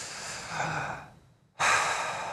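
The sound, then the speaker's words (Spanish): A long, breathy exhale through the mouth during a belly-breathing exercise fades out, then after a short pause a second strong breath begins. “Sale el aire por la boca llevando el aire hasta su vientre.”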